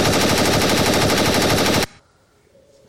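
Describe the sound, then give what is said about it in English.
Machine gun fire in one loud, continuous burst of rapid, closely spaced shots lasting almost two seconds. It cuts off abruptly and leaves near silence. “wow, that was a machine gun firing.”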